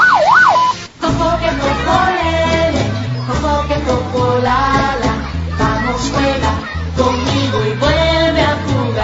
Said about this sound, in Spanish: Saque su basura al sonido de la sirena del camión recolector.